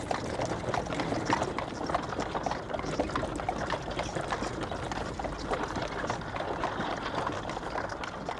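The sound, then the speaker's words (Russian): Hooves clip-clop steadily as a horse-drawn carriage loaded with suitcases and trunks rolls through monastery gates into the courtyard, a dense run of many quick hoofbeats over a constant rumbling wash. “Монахиня в черной рясе ведет одну из лошадей, запряженную в карету через ворота монастыря. Карета, набитая чемоданами и сундуками, въезжает во двор.”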